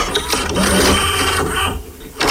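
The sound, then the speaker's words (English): Mechanical clatter of a VHS tape being inserted into a VHS machine: a few loud clicks and clunks mixed with a whirring motor, then a brief quieter pause before another clunk, with no voices. “and that is the sound of opening a video or putting a video into your VHS machine, which are pretty much non-existent now.”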